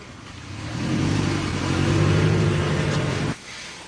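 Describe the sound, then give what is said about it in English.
A car engine revs and accelerates as the car drives away. The steady, throaty drone swells and holds for about three seconds, then cuts off abruptly near the end, leaving a quieter hum. “There she goes, driving away, Mary Pelota”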